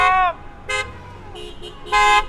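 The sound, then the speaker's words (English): Car horns honk from a few dozen protesters' cars driving around outside the Alabama Capitol. Several loud honks of varying length break through a low, continuous vehicle rumble. “Outside the Alabama Capitol this week, a few dozen protesters drove around demanding to get back to work.”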